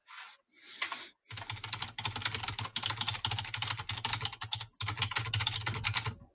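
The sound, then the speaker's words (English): Loud, fast typing on a computer keyboard: rapid clattering keystrokes in dense bursts, broken by a few short pauses. “You're a very loud type.”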